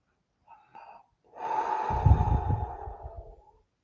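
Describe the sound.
A deep, long inhalation during a guided breathing exercise with the arms raised: a few faint brief breaths, then a steady, rushing intake lasting about two seconds that fades out.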